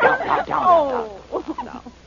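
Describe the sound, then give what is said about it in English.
A large dog gives a few rough, throaty barks and growls. One drawn-out call slides down in pitch, and shorter, choppier barks follow it. “what is that? A dog.”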